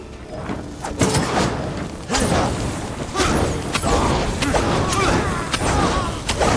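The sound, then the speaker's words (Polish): A sword strikes a piece of rock in a samurai action video game: several sharp, heavy impacts land at irregular intervals, each with a short swish and a ringing thud over a steady game ambience. “uderz mieczem o ten kawałek skały.”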